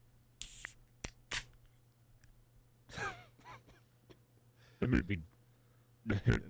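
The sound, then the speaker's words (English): Cracking open a can of beer gives a few sharp clicks and short hissing bursts, spread out with quiet gaps between them. “Hold on, let me crack my beer.”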